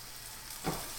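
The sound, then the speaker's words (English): Bacon frying in a pan gives a steady, soft sizzle with a fine, even hiss, broken by one brief, slightly louder crackle partway through. “It's bacon right now, and then French toast, and then if you want eggs.”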